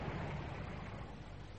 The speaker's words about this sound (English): Nothing, Fred, nothing. Just drive a taxi.